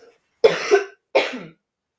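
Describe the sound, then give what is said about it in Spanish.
A person coughs twice. Each is a rough, raspy burst, and they come about half a second apart with nothing else around them. “Voy a toser, pido perdón.”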